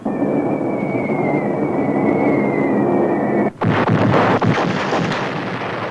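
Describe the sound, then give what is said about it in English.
Heavy explosions from an 8th Air Force bombing raid on a ball-bearing factory outside town: a loud, continuous rumble with a steady droning tone, then, after a brief dip, many sharp crackling blasts in dense succession. “That's some show the 8th Air Force is putting on. They must be bombing that ball-bearing factory outside of town.”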